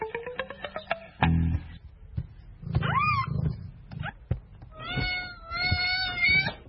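Meowing from a mother cat nursing her kitten: several tonal, wavering meows, some short and some drawn out, mixed with low rumbling sounds and no talk.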